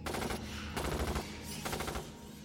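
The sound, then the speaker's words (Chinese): Automatic rifle fire as a soldier empties a full magazine from behind a sandbag breastwork during a fight against giant bats: loud, rapid rattling shots in dense bursts, sustained throughout with no voices. “从胸墙后面站起身来，端起自动步枪射出整整一梭子子弹”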